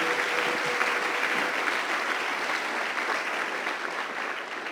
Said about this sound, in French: J'aimerais qu'on l'acclame très fort avant de terminer.